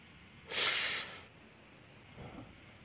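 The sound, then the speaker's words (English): A deep breath moves in and out: one strong, airy rush of breath lasting under a second, then a much fainter breath a moment later, with no talking. “Big breath in, a little more out, and out, more in, and out.”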